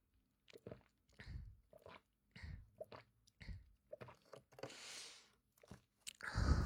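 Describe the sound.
Someone tastes hot soy milk with faint mouth sounds: a run of short wet smacks and clicks, then a longer breathy sip or blow midway and a louder slurp at the end, with no speech.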